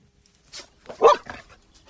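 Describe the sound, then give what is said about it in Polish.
A rescue dog barks a few times to signal it has found a person during a search training exercise with firefighters, sharp separate barks with one louder bark in the middle. “Tutaj jest kilka osób zaginionych i pies ratowniczy po znalezieniu takiej osoby sygnalizuje.”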